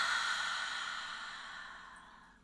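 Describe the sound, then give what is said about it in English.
A long, deep breath is released during a guided relaxation exercise: a soft, airy exhale that fades gradually over about two and a half seconds, quiet and alone without talk. “let's take a nice, long, deep, deep breath in. And release it.”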